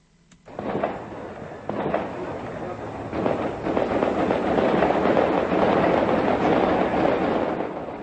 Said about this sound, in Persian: این صدای تیراندازی شب سه‌شنبه به چهارشنبه از قلب کابل از منطقه گذرگاه محل واقع در تپه‌های اطراف قسمت قدیمی پایتخت افغانستان بلند شد.